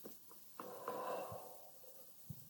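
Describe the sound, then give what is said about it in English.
A slow breath in and out during a guided grounding exercise, a soft airy hiss that swells and then eases away, quiet and without talk. “Let's breathe in. Breathe out.”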